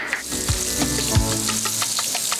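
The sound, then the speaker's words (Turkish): Steady, crackling sizzle of butter softening in a cooking pot before onions go in, continuous and bright, with a couple of brief soft low knocks near the start. “Tereyağımız yumuşamaya başlayınca soğan atacağız.”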